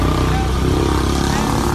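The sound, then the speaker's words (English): Motorcycle engine on a crowded street at night in India, a loud, steady droning rumble that holds level throughout without any clear pass-by peak. “That's the sound of the bike over here.”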